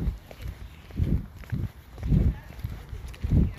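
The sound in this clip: Footsteps of four men out walking together, heavy and regular, with many low thudding steps in a steady rhythm across the stretch.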